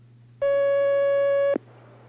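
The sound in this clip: A telephone line tone sounds as a phone call is taken. It is a single loud, steady mid-pitched beep lasting just over a second, held over a faint low hum, then stops.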